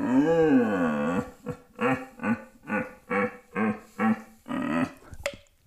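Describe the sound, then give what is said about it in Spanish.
Deer stag bellowing as it trots after females to herd them: one long, wavering harmonic groan, then a rhythmic run of shorter, deep, throaty calls, loud and alone. “el berrido de el venado recogiendo las hembras”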